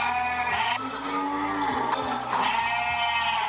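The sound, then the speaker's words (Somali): Livestock bleating at the livestock market in Balbala district, on the outskirts of Djibouti city: a dense, continuous chorus of overlapping wavering bleats from several animals, some calls rising and falling, steady and fairly loud throughout with no voices. “Gegada xoolaha ee magaalada Jabuuti waa goobta lagu xareeyo wixii xoolo nool lagu cunayo magaalada Jabuuti.”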